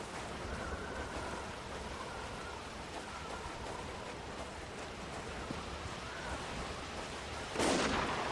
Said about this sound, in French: On dirait un sniper. Il doit pas être loin d'ici.